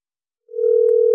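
A telephone dial tone as a radio call-in show reaches its first caller, a steady, even hum that begins partway through and holds unbroken to the end, with no voices.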